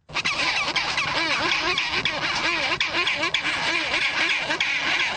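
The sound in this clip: Chinstrap penguins squabble loudly over nest sites, a dense chorus of harsh, braying, overlapping calls that runs without a break, rough and raucous throughout.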